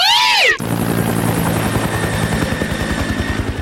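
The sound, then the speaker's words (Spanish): Helicopter rotor chopping in a fast, steady stream of loud low thumps that carries on to the end, entering after a brief high, wavering tone at the start. “En una de esas te subes al helicóptero.”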